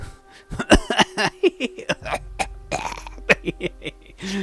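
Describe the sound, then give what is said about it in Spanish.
A drunk man coughs in many harsh, throaty vocal bursts with an irregular, spluttering rhythm, fairly loud and alone. “El hombre empezó a toser y reír.”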